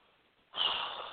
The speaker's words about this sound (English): Let me take a breath here.